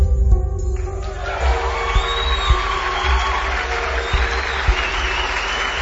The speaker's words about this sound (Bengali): নাটক শেষ হতে হলভর্তি হাততালির মাঝে